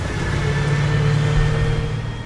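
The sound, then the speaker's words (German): The first vehicle of a military convoy drives along a street during a training exercise, giving a steady low engine rumble with a faint hum, with no voices. “Der erste Wagen des Konvois passiert die Straße.”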